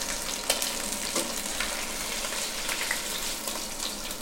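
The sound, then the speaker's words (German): Meat fries in oil in a pot, giving a steady, soft sizzle with a continuous hiss and scattered small pops throughout, without talk. “so eine gewisse gebratene Note im Topf zu haben. Und deswegen wechseln wir auch das Öl nicht.”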